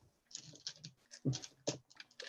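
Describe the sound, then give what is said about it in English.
Dice clattering in a dice tray during a tabletop role-playing game, a quick, faint series of rattling clicks and taps in irregular bursts. “A lot of clattering going on there. Yeah, that's a lot of clattering. I'm even doing it in a dice tray to try and stop the noise,”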